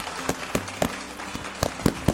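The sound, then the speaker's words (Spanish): A few people clap sparsely in a small welcome, producing scattered sharp hand claps at uneven intervals over a quiet background. “¿Le damos la bienvenida entonces? Sí. Aplausos.”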